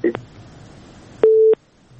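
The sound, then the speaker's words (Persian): A phone call is disconnected: a click, then a single short steady beep of a line tone rises above a faint background murmur. “تماسشان قطع شد، فکر میکنم سوالشان رو گرفتن.”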